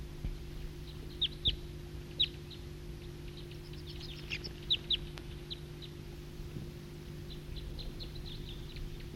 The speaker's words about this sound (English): It's recording flock of wild birds.